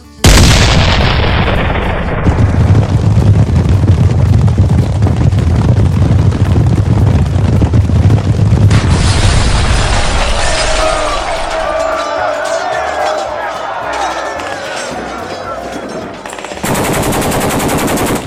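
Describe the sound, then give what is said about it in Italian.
Sustained gunfire from a squad shooting on command during a street fight, a loud, dense and unbroken roar of rapid shots that keeps going for the whole stretch, its texture shifting partway through. “Puntare, caricare fuoco!”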